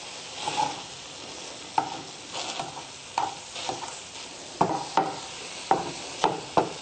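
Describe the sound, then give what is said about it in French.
Tofu frying in a pan with water boiling at the bottom: a low, steady sizzle and bubbling, broken by many sharp scrapes and knocks as the pieces are stirred, coming more often toward the end. “au bout de quelques minutes, quand l'eau bout au fond de la poêle, et qu'on a mélangé un petit peu”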